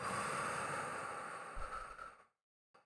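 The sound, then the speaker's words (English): A deep breath exhaled slowly during a guided relaxation exercise: a long, soft, airy rush that gradually fades out, followed by a brief quiet breath after a moment of silence. “Take a big deep breath in. Filling your lungs all the way to the top. Pausing. Let it go.”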